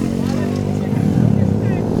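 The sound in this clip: Motorcycles ride past in a parade at a motorcycle event, their engines a deep, continuous rumble with a few brief surges, while people talk over the noise.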